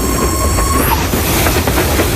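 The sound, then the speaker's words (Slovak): A rack railway train runs on cog wheels that mesh with a toothed rack between the rails, built for steep climbs and braking. It gives a loud, continuous mechanical rumble, with a thin, steady whistling tone through the first second that then fades. “Preto je medzi koľajnicami umiestnený ozubený hrebeň a rušeň má ozubené kolesá, ktoré doň zapadajú. Ďaka tomu sa vlak môže bezpečne pohybovať aj v strmom stúpaní, ako aj pri brzdení.”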